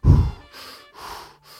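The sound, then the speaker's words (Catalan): Deep breaths taken as a breathing exercise: a louder, rough first breath is followed by a few softer, airy breaths in steady succession, each separated by a brief pause. “Vaig a respirar, faig uns exercicis de respiració.”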